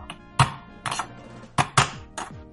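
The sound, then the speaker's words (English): Clanking of a pot and utensil as boiled potatoes are drained and mashed with butter and milk, heard as several sharp, irregular metallic knocks and scrapes without talk. “Right, are these potatoes boiled? I'll just put a knife in them. Yes, they are. I'll drain and mash them, adding a big knob of butter and a little milk.”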